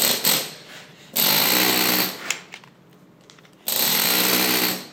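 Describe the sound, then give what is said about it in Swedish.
Loud, harsh rattling of a toothed chisel dressing stone for a church comes in a few sustained bursts separated by quieter gaps, with a gritty, buzzing texture. “Med det här tandhuggning, du får ett helt annat djup och ett helt annat utseende på stenen. Du får den här gamla utseendet.”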